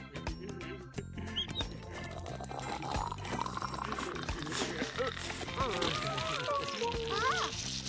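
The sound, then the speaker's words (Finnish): Bath water runs and pours in a steady, continuous wash, with voices speaking over it. “Tulipa sotku. Nyt sinun pitää kyllä mennä kylpyyn.”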